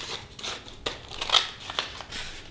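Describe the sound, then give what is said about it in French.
Scissors cut down the middle of a paper Möbius strip in a series of crisp, papery snips at an uneven pace, with the blades' bright rasp fairly quiet against the background. “Je prends cette bande et je la découpe. Donc je parle, voilà, je raconte des trucs. Je la coupe par le milieu.”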